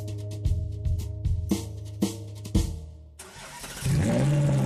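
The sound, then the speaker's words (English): A crimson Ferrari sports car starts up on the street. A few sharp engine bursts rise and fall, then after a brief dip the engine settles into a louder, continuous roar. “Start up your crimson Ferrari on the street and watch the heads turn.”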